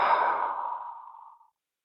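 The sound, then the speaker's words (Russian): A deep, slow exhale out through the mouth: one long breathy rush of air that is loudest at the start and fades steadily over about a second and a half, then silence. “внимание на сердце, глубокий осознанный вдох, свободный выдох ртом”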